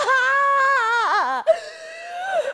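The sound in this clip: A woman cries in a high, wavering, wailing sob that dips and trembles. After a brief break it turns into a longer, steadier whimpering tone, fairly loud with no other sound.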